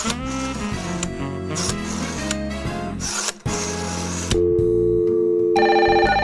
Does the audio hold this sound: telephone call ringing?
yes